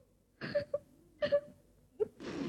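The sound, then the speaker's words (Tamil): A person crying in a few short, wavering whimpers and sobs, each a brief voiced moan separated by pauses, followed by a soft breathy rush at the end. “ஏன் அழுற?”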